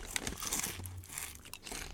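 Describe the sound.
Sweet potato chips are eaten from a bag, with faint, irregular crinkling of the packet and crisp crunching in short scattered bursts, quiet throughout with no talk.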